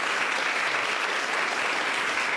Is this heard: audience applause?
yes